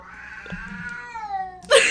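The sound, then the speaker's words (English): A cat in the room gives one drawn-out meow that slides downward in pitch. A short, louder burst of noise follows right after. “I'm sorry if you can hear the cat”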